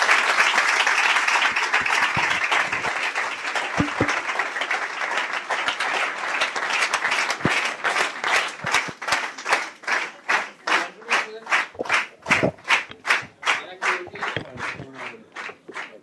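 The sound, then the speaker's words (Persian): Audience applause at a gathering in honour of a speaker: thick, loud clapping at first that gradually thins into separate, evenly spaced claps toward the end. “آقای آجالو به افتخارشون دست بزنین”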